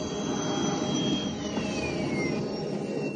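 A landspeeder races over desert sands in a radio-drama effect: a continuous jet-like engine roar with a thin whining tone that slides gradually downward, steady and loud throughout.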